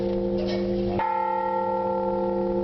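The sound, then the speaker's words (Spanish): Bells of Toledo Cathedral ring with steady, sustained tones, and a clear new stroke lands partway through before the hum lingers on. “Este es el sonido de las campanas de la catedral”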